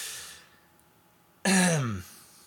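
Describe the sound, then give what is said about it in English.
A single throat clearing from a hoarse man with a raspy voice: one loud, rough burst of about half a second with a falling pitch, standing alone after quiet breathy background noise. “I didn't even want to really pound out a throat clear there”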